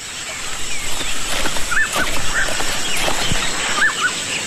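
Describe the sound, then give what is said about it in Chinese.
A flock of egrets is startled into flight by a river. A few short, high bird calls ring out over a steady rushing background. “正是带着两个孩子来到河边洗衣服，忽然惊飞了一群白鹭。”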